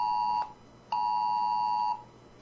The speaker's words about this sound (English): Oh, there goes my phone. Hold on. Extreme alert. Tornado warning.